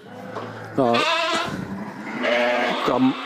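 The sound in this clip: A young livestock animal, 18 days old, bleats: two loud, wavering, tonal calls with rough background noise between them.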